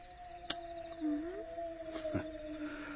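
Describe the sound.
A wolf howling: a faint, drawn-out, low howl holding a steady pitch with a brief upward bend partway through, and a couple of sharp clicks.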